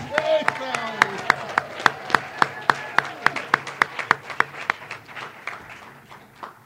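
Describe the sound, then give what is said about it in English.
An audience claps in a quick, steady, evenly spaced rhythm as one more round of applause for a teacher. Many sharp claps land at a regular beat, then thin out and soften toward the end. “So if I could just implore you to give her one more round of applause.”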